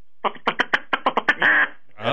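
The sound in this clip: Duck quacking, a quick series of short, nasal quacks that ends in a longer, drawn-out call, loud and clear with no talk over it.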